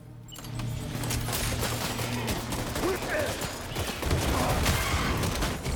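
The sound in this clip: Rapid assault rifle gunfire from a video game, a long stream of many sharp, noisy shots running almost without pause and growing slightly louder toward the end.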